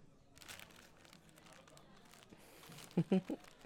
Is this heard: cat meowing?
no